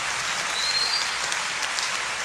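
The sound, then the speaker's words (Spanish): Applause from an audience during a sermon-style address, a moderately loud, even wash of many hands clapping without pause. “¿Se quiere aplaudir? Sí.”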